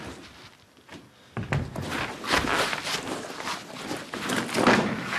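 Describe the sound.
Footsteps crunch through gravel as someone walks, giving a steady run of gritty, scraping steps that grow louder and denser after the first second.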